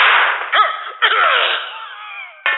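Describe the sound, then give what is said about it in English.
A camera loaded with its battery the wrong way gives off gunshot-like cracks: a few sharp, loud bursts, each trailing off into a ringing, slightly whooshing decay, separated by short gaps. “When I put the battery in wrong, my camera sounds like a gun.”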